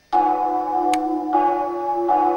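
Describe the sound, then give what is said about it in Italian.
Church bells ring for a procession: three strikes, each starting a loud, sustained, humming tone that carries into the next strike. A sharp click is heard between the first two strikes. “Senti, suonano le campane”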